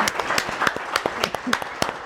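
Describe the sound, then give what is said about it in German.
Audience applause for a guest professor at a public discussion about the Lausitz region: a moderate patter of individual claps at an uneven pace, with a voice faintly audible now and then. “Ihr Applaus, Herr Professor Zundel.”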